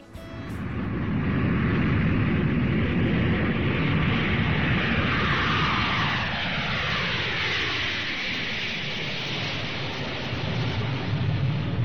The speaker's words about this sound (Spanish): que ya nos pone ahí en cabeza de pista. Metemos caña a los motores y despegamos aquí en Paralelo 20